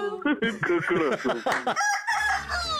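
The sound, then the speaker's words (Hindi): A rooster crows loudly, its drawn-out, harmonic call following a busy stretch of rapid, choppy sounds. “बोला कुकड़ू कुकू”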